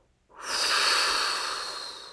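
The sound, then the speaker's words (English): A deep breath drawn in and blown out during a guided relaxation, beginning abruptly after a short silence and swelling into a long, airy hiss that slowly fades, with no talk. “Last breath coming all the way in. Big inhale and blow.”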